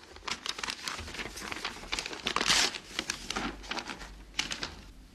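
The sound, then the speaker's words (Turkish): A paper envelope, found inside a jewelry box, is torn open: many quick crinkling and tearing rustles in a dense, uneven patter that swells in the middle and continues to the end. “Mücevher kutusunun içinde bir de zarf bulduk. Size yazılmış. Buyurun.”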